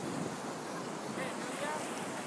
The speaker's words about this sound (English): God, that wind is horrible.